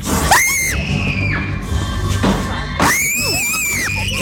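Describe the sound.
Shrill screaming rings out inside a horror-themed haunted house maze, with several high, wavering cries in separate bursts over a dull, steady background rumble.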